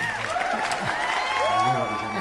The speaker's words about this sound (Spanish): ahí el público aclamando la interpretación de acá del radioteatro en La Mosquitera